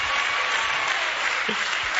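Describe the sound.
An audience clapping during a church service: many hands blend into a steady, fairly faint patter that holds an even level, with a brief faint voice partway through.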